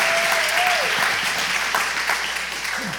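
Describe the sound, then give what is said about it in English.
Audience applause welcoming a panel onto the stage at a morning gathering: a steady, dense wash of many hands clapping that holds evenly throughout and eases off slightly at the end. “Come on, give them one more big hand. Make them feel comfortable there this morning.”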